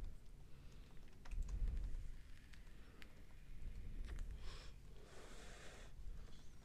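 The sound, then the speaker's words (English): Keyboard typing as someone notes down a list of orange things, a run of quick, light clicks in uneven bursts, fairly faint, with no voices. “Are you Googling orange things? No, I'm writing them down so I don't forget of what I've already said.”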